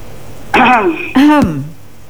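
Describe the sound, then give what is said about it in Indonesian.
Two short, throaty coughs like throat clearing come from a caller on a telephone line. The bursts are loud and raspy, with a brief pause between them and no talk. “Batuk dulu orang.”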